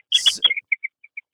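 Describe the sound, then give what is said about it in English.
Birds sing in a Florida backyard around 8 in the evening: a quick cluster of harsh chirps, then a string of short, high, thin whistled notes spaced out and fading slightly, with no voices. “I don't know what that sound is. Are you like wrestling with birds? I know. See, the weather is so great in Florida. The birds are still singing.”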